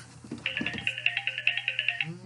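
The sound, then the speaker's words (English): A phone ringtone trills in many rapid, bright, high-pitched pulses at a steady pitch and moderate loudness, running over a low constant hum before stopping. “excuse me, phone call.”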